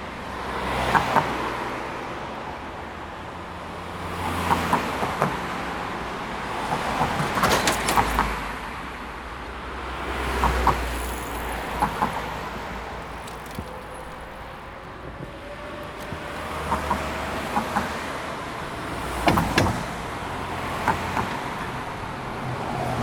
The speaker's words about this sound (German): Und immer wenn die Fahrzeuge drüber fahren, hat man so einen schönen Sound.